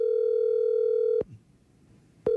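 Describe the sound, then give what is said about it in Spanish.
A telephone dial tone while a call is being placed: a steady, loud, buzzy hum that cuts off with a click, leaves about a second of near silence, then returns with another click. “Está marcando”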